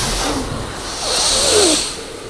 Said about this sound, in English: It's good if we all do it together. We do it a little forceful, yeah. It's called Bhastrika Pranayam.